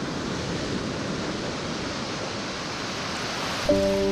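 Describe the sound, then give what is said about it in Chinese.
East China Sea tidewater washing into hand-worked salt pans on an island in Xiangshan, Ningbo: a continuous, even rush of surf-like noise, with sustained musical tones entering just before the end. “东海潮水每日如约而至，涌入宁波象山花澳岛的盐田。”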